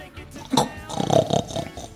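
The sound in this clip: A voice imitating a pig's grunt during a children's story reading: a short, low, snorting burst, then a longer rough, throaty grunting sound, about two seconds in all.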